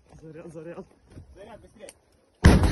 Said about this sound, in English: It's been shot toward the tank. We'll see the tank as a result of the strike.